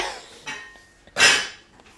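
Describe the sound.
Pots and pans clatter while cauliflower cooks and threatens to boil over: a few brief metallic clanks, then one louder crash that rings out and fades.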